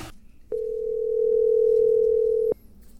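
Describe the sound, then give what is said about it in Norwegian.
A telephone dial tone as a call is being placed: one steady, unbroken mid-pitched tone that holds for about two seconds and then cuts off, with no talking. “skal vi ringe til Kristi Tromsdal? Ja, la oss se.”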